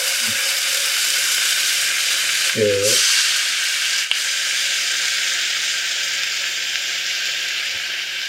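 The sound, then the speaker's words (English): Onions fry in oil with garlic, giving a steady high sizzling hiss with a low hum beneath it. A brief voice cuts in partway through. “And the onions. Just cook them for like a few minutes.”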